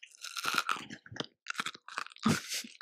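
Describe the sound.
Crisp crunching and chewing of shimmer mini chocolate eggs: many close, sharp bites and chews in uneven bursts separated by brief pauses, with no talking.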